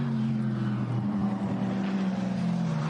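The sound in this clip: The race leader's racing car drives the track near the Brünnchen right-hander, its engine a steady, loud, low droning roar with no talk.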